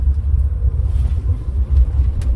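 Low, steady rumble of car engines in a long queue of about 200 vehicles, a continuous fluctuating drone with no clear separate events.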